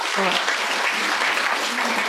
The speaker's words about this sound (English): Round of applause for Christina